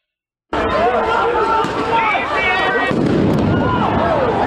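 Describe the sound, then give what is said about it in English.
Bangs and pops from police flashbang grenades going off outside during clashes with protesters, set in dense, continuous crowd noise with scattered whistling tones running through it. “Police firing flashbangs now.”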